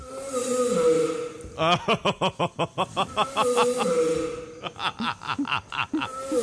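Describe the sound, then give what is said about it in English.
Two giant tortoises mating produce many loud, rhythmic, voice-like groans, an eerily human-sounding series of throaty pulses. The groans come in two runs separated by a brief pause, with fainter breathy noise between them. “Here is the sound of two giant tortoises mating. And it sounds a little too close to human to sit well with me.”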